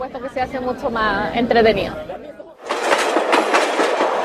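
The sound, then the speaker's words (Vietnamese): A 1920s vintage train running on rails through Chile's wine country, with a steady loud clatter and rumble that takes over after people talk in the opening seconds. “Đây là một trải nghiệm rất thú vị về mọi mặt, được đi trên một chuyến tàu có từ những năm 1920. Điều đó thực sự rất đặc biệt.”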